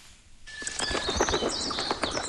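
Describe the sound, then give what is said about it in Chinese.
Wild birds call at a lake in spring at dawn, a busy mix of bright chirps, tweets and soft coos overlapping in irregular bursts, moderately loud and without talk, over a faint steady background hiss. “晨光熹微，清脆的鸟鸣划破了白洋淀的宁静，各种鸟叫声此起彼伏，交织成一场动人的音乐会。”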